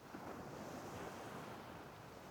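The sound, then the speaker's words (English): Ocean waves gently wash onto a sandy beach. They make a soft, steady, continuous hiss of surf at low volume, with no distinct breaking crashes and no voices. “as you walk along the beach, along the waves gently going up and down onto the sand”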